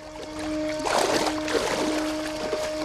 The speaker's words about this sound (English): the water seems calm, and shouldering his camera, he wades towards the boat.